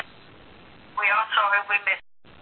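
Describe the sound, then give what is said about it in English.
A muffled, tinny recorded voice plays from a speakerphone in the background of a conference call. It comes in a few short bursts over faint line noise, then cuts to a brief dropout. “He's listening to voicemail on a speakerphone or something.”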